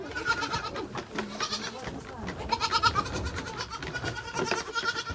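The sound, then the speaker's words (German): Young goat kids bleating while they crowd around a bucket fitted with six teats to drink milk. Many overlapping, high-pitched bleats come continuously with busy jostling noise throughout. “Den etwas älteren Zicklein bringe ich bei, immer zu sechst an einem Eimer mit sechs Nuckeln zu trinken. Manche Lämmer wollen die anderen wegschubsen.”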